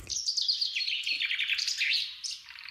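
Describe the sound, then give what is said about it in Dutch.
A chaffinch sings a bright, rapid run of high chirps that flow into a trill, lasting a few seconds and heard alone without voices. “Volgens mij hoor ik een vink.”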